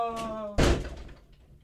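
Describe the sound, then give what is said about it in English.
A door is closed with one heavy slam. The thud comes right after a brief voice and decays over about a second. “We're going to close the door. It was a nice show, guys. Closing the door.”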